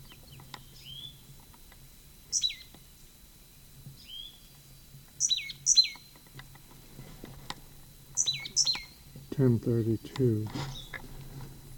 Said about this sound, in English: Same bird.